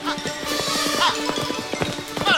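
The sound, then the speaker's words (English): Hooves of a galloping horse in the woods, chasing a runaway horse and leaping a log, clatter in a fast, steady rhythm of many beats over a sustained tonal background. “Roger's horse leaps over a log and closes in on Diane.”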